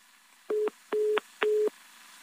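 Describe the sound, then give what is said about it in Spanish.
Telephone tone after a dropped call: three steady, evenly spaced beeps of equal length, each a clear mid-pitched buzz, with quiet line hiss between them and no voices. “se nos cortó la llamada con Andrés Castañeda Prado”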